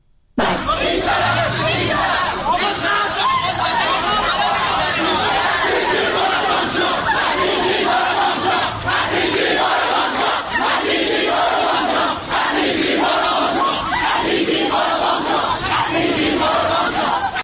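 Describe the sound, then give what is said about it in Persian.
Students shout and yell continuously inside a Tehran university during a violent clash with attacking Basij forces, a loud, dense crowd roar with repeated bursts of chanting that never drops away. “میتونیم الان بخشی از صدای این خشونت‌ها رو بشنویم که در دانشگاه امیرکبیر یا پلی‌تکنیک تهران رخ داده؟”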